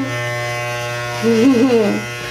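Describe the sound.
An electric shaver buzzes steadily as someone tries to shave their head bald, giving a constant low hum, while a voice speaks briefly over it partway through.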